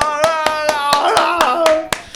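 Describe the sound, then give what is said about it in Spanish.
Steady rhythmic hand clapping: about ten sharp, evenly spaced claps over a sustained melodic line, keeping a brisk beat from start to end. “¡Ole, David! ¡Un aplauso!”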